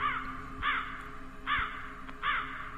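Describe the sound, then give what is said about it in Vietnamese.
A crow cawing at night, separated from its flock: four harsh, nasal caws spaced at fairly even intervals, alone over a faint steady background hum. “đâu đó có tiếng con quạ kêu lạc bầy, quang quác quang quác. Tiếng quạ kêu trong đêm văng vẳng”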